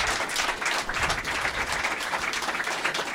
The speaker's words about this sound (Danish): Men jeg kan gerne give en kæmpe stor hånd til en dinosaur-opdrætter. Giv en kæmpe stor hånd.